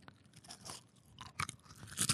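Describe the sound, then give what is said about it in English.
Crunchy Cheez-It cheese crackers being chewed during close-up ASMR eating: faint, irregular crisp crunches in quick bursts that grow louder toward the end, with no talking. “Here is Cheez-Its unboxing and eating ASMR.”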